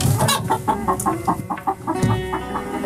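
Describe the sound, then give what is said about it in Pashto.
A white hen clucks as she walks slowly along, giving a steady run of many short, clipped clucks at a fairly even rhythm. “سپینه چرګه ورو ورو د غوجل په لور روانه سوه”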